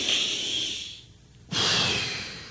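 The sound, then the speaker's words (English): Deep breathing through a nose with a deviated septum: a long, airy breath, a short quiet gap, then a second long breath, both loud and breathy with no talking. “let's collectively take a deep breath together”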